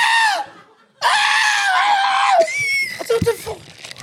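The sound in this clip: A person imitates a loud, shrill scream, the kind that frightened dogs: two long, high, wavering shrieks with a brief break between them, followed by speech.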